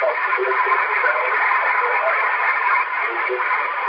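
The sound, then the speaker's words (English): Radio reception with noise reduction turned down, mostly a constant narrow-band hiss with faint, muffled speech buried in it. “Now I'm gonna turn that noise reduction down.”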